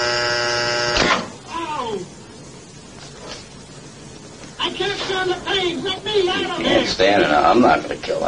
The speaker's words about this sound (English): you're going to get a shock. 180 volts.